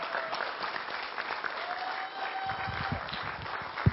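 Applause from a church family conference audience welcoming a preacher, Reverend John George, to the stage: dense, steady clapping that fills the whole stretch at an even level, with a few sharper claps near the end.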